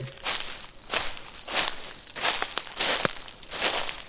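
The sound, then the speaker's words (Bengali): Human footsteps through overgrown grass among old graves: a steady series of soft, crunching steps, loud and alone, each a brief rustling burst at an even walking pace. “আমার মনে হলো বহু শতাব্দী পরে এই প্রথম এখানে মানুষের পায়ের শব্দ শোনা যাচ্ছে।”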